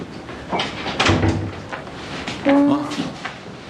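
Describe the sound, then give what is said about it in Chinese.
A door is pulled shut, with a few short knocking and latching sounds among people talking. “赶紧，快点把门关上”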